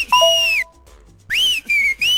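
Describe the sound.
Shrill whistle sound effects: a long blast that slides slightly downward, a pause, then three more high whistles, the first sweeping up before settling, all loud and clear with no talk.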